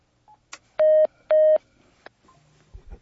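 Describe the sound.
A phone dialing out a call: two loud, steady electronic tones of about a quarter second each, surrounded by faint clicks and brief quieter blips, with no talking.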